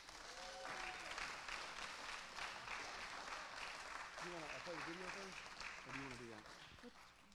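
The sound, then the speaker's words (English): Audience clapping hands to welcome a woman up to the front, steady dense applause sustained throughout, with voices calling out over it before it thins slightly at the end. “Let's put our hands together and welcome my mother, Barbara Bunton.”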